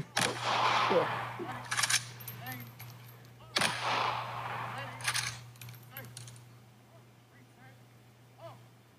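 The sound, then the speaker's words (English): Two sharp gunshots fired as a gun salute in honour of Magawa, loud separate blasts a few seconds apart, each with a fading tail, with people talking around them. “Fucking two gun salute. We didn't get the third or no. Best one available.”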